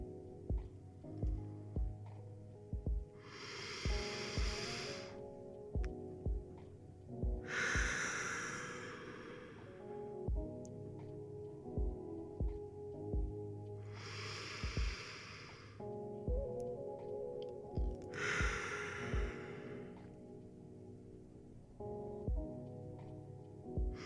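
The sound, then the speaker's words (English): Slow, deep breathing during a guided relaxation exercise: four soft, airy breath sounds in two spaced pairs, heard over quiet, sustained background music with faint ticks. “We continue to fill it as we breathe together 3 times.”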